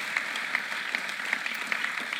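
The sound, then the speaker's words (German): Audience applause, a dense, even patter of many hands clapping, fairly faint and steady throughout with no voices. “Definitiv und dir wirklich einen Applaus, dass du so spontan warst, mega gut.”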